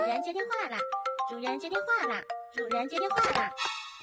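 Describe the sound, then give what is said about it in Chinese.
A phone ringtone plays a bright, jingly melody of stepped tones, with voices talking over it throughout. “是谁在打电话？”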